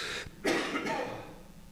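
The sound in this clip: A few coughs from a man pausing his sermon: short, harsh bursts close together, followed by a fading breathy tail with no speech.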